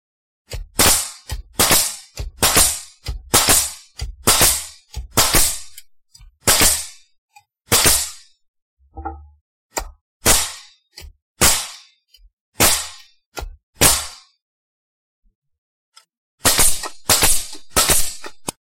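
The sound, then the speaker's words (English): A nail gun drives nails into a bat with many sharp, loud bangs. They come in quick irregular runs, thin out midway, pause for a long gap, then return in a final rapid cluster. “What are you going to do with your bat? Oh, you'll see. Give me that nail gun.”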